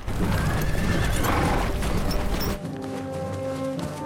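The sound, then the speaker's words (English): Horses galloping through a forest with riders, a dense, loud pounding rush of hoofbeats with a horse whinnying, the texture thinning partway through into a lighter continuous rumble. “Meanwhile, Gisborne, the sheriff and Alan, along with some of the sheriff's men, gallop quickly through the forest.”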